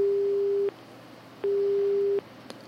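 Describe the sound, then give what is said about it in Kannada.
A telephone busy tone sounds after a call cuts off from a network problem: two steady, low beeps of equal length with a silent gap between them, heard alone. “ಕರೆ cut ಆಗ್ತಾ ಇದೆ, ಈ network problem ಅನ್ಸುತ್ತೆ.”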